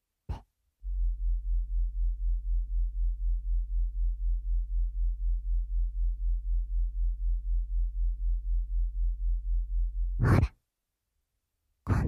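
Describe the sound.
Very low tone from normally inaudible low-frequency sound made audible, a steady deep hum with rapid, regular pulsing that runs alone for about nine seconds, framed by brief noisy bursts at the start and end.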